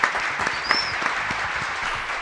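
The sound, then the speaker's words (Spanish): Applause from an audience welcoming a guest at a live show: a steady, dense clatter of many hands clapping, sustained at an even moderate level throughout. “Fuerte el aplauso.”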